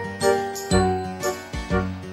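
A jingling bell rings for a little toy man, four bright, evenly spaced ringing strikes with shimmering high overtones that linger briefly between hits, heard alone.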